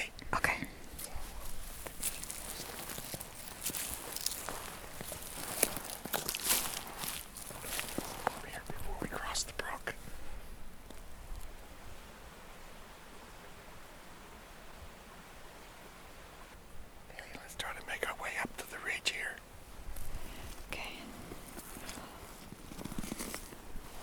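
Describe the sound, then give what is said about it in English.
Slow footsteps crunching through woodland brush, stopping for a long quiet pause midway before starting again. Soft and faint throughout, with hushed whispering at times. “So that's the way we've got to walk for the next while.”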